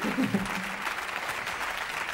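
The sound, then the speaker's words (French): Audience applause at an evening event: a steady, dense patter of clapping that holds at an even level, with a voice briefly audible near the start. “Donc ça mérite encore plus d'applaudissements.”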